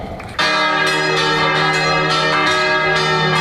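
Church bells peal at a festival performance in Kotor. A loud, sustained metallic ringing with rich overtones begins abruptly after a short quieter lead-in, and repeated strikes layer over one another until the end.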